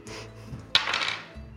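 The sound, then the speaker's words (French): Dice rolled during a tabletop game: a faint rattle that starts with one sharp click, then about a second of tumbling clinks over a low background hum. “Lance les dés, fait moins de 70.”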